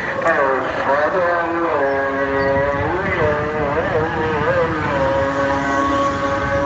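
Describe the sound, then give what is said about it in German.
Engine drone and traffic on a busy, dirty, bumpy village street with oncoming tuk-tuks near a mosque: a steady motor hum with wavering tones, while a person talks over it. “Hier rollt einer gerade einen riesen LKW-Rad über die Straße. Tuk-Tuks kommen mir entgegen.”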